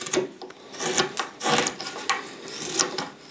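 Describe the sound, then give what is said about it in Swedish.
A knife whittles the rough outer shape of a wooden horn being made from a plank, producing many coarse, rasping scrapes in an uneven rhythm of short and longer strokes. “Jag ska bara tälja fram lite grovt ytterformen på stycket.”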